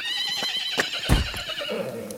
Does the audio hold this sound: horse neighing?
yes